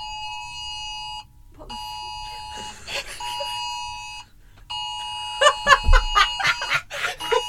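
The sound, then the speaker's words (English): A phone emergency alert drill tone sounds as a steady, piercing multi-tone buzz in three long bursts separated by brief gaps, with people talking and laughing over the final burst. “So if you're wondering what that sound was, it was just the world ending, apparently. It was the government notifying me of an emergency, but it was just a drill.”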